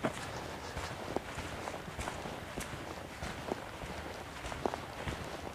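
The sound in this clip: Footsteps walking through a moor, soft and faint, with irregular muffled steps and a few slightly sharper footfalls over a quiet outdoor background.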